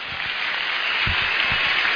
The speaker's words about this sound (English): Please, if you want to clap, you can do that.